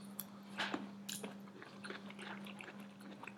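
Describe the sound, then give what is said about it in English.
Faint chewing and crunching as someone tastes a clear, crunchy, fry-like Chinese potato, with soft bites and squishy mouth sounds over a low steady hum. “It looks like a clear, almost French fry. And I think, you know what I think? I think it's like a Chinese potato. Okay, I'll give it a taste.”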